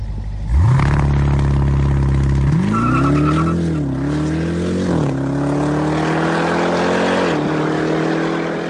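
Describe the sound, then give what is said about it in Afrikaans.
Roaring engine of the fastest, most powerful production SUV, a 2.5-ton vehicle: a loud rev bursts in, then a sustained heavy drone climbs in pitch through several stepped surges, continuous and forceful throughout. “Kyk, as jy na hierdie klanke luister, dan is ek seker jy sal weet dat hierdie is die vinnigste en kragtigste produksie sportnuts wat al ter wêreld gebou is. Luister net gou hierda.”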